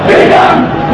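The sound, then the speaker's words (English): Crowd shouting at a protest in Cairo over Pope Benedict's comments on Islam and jihad. A loud, dense roar of many voices holds steady through the brief moment. “This is the sound of a protest in Cairo.”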